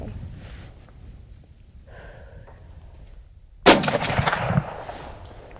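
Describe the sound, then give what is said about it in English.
A single loud gunshot from a hunting gun cracks out suddenly after a stretch of quiet low rumble, then trails off in a short, noisy decaying tail. “Okay, that's more recoil than I remember. Did I get it? I don't think I got anything.”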